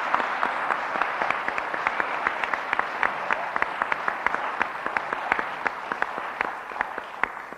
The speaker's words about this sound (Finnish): Annetaan hyvät aplodit, eikä?